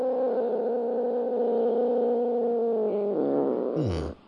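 A cat warbles at another cat in a steady, droning, harmonic yowl with a slight waver, held for about four seconds before it slides down in pitch and cuts off.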